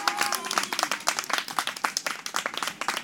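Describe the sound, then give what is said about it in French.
Audience applause at a live gathering where performers are introduced: dense, loud clapping from many hands, fast and irregular, holding steady for about three seconds with no single voice standing out. “Allez, on applaudit bien fort Félicie.”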